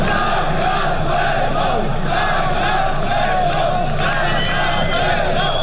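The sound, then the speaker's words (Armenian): A crowd of protesters chants "Georgia, Georgia" in front of parliament, with loud, continuous massed shouting. Rhythmic chanted phrases rise above the crowd's roar. “Վրաստան, Վրաստան, բացականչում էին ցուցարարները 3 երեկոյան”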